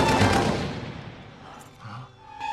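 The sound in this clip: Gunfire rattles out in a loud, rapid burst of shots that fades over about a second, followed by a couple of quieter bursts near the end.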